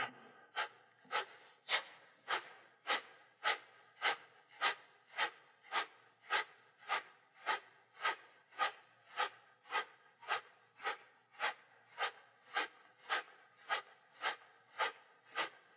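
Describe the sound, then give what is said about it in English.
Kapalabhati yoga breathing: many forceful nasal exhalations in a steady, even rhythm of about two sharp puffs per second. Each puff is a short, airy snort separated by brief quiet. “We'll do Kapalabhati.”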